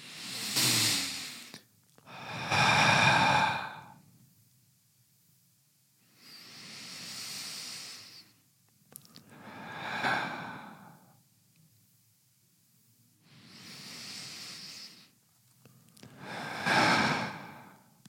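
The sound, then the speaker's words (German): Three deep breaths drawn through the nose, each a slow airy inhale followed by a hissing exhale, six soft swells in an even rhythm, quiet and without talk. “Lass uns mal drei Atemzüge durchführen. Dann können wir es aber. Achtung. Durch die Nase aber.”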